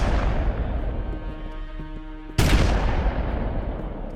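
A single sharp gunshot from a gun fired at a person indoors: one sudden, loud crack just past mid-clip over a low, steady background rumble.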